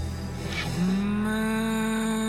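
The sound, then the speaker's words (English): Cows mooing: one long, loud, steady low moo follows a short noisy start and holds to the end, with no voices. “has turned the whole town into a bunch of mooing cows.”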